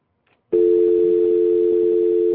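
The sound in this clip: Telephone dial tone when placing a call: a faint click, then a steady single-pitched hum starts abruptly and holds loud and unbroken to the end, with no talk.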